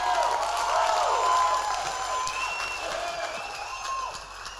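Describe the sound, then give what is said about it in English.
A church audience claps hands and shouts: dense, steady applause mixed with scattered voices calling out, loud throughout and easing slightly toward the end. “Somebody clap your hands and shout.”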